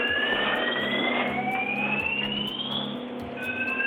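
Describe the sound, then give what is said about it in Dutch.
A faulty fire alarm in an apartment complex in Utrecht sounds a loud, continuous, high electronic tone that holds steady throughout, with no talking. “bij een wooncomplex in Maarsenbroek in Utrecht gaat al maanden spontaan het brandalarm af. Dat duurt dan urenlang.”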